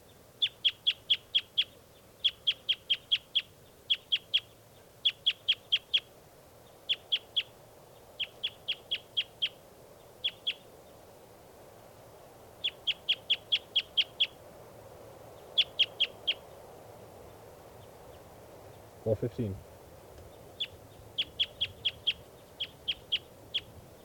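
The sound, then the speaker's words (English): Bird song in an outdoor field recording: many short bursts of high, thin chirps in quick groups, with pauses between the groups, over a quiet background hiss. “It's recording. This is bird 4:15.”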